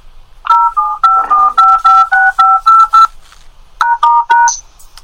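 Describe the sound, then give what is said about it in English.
Telephone keypad tones play as a redial replays the numbers for a conference call: a rapid run of short, steady two-pitch beeps, a brief pause, then a few more, ending in a single higher tone. “Let me see if I hit redial. It'll take me back in without repeating the numbers.”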